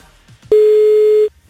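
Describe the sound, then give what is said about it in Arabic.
A telephone ringing tone plays while calling a radio contest winner: a single loud, steady tone of under a second that starts abruptly and stops cleanly, with quiet before and after. “عم نتصل هلأ بالرابح الثاني. خلينا نشوف مين حيكون رابح الثاني معنا. يا رب يرد على التليفون.”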